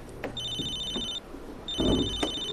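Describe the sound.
A telephone rings in two separate bursts, each a bright, steady electronic trill with a sharp high tone. There is a short gap between the bursts, and faint low background rumble runs underneath.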